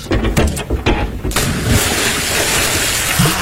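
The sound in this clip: Splash of a swimmer jumping from a 3-metre diving board: a few dull thumps, then a sudden loud burst of water that spreads into a steady rushing wash lasting to the end.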